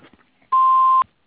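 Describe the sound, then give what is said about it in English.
An answering machine beep: one steady, mid-pitched electronic tone that lasts about half a second, sounding alone and fairly loud before it cuts off cleanly. “Please leave a message at the beep.”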